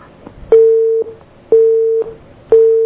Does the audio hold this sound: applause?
no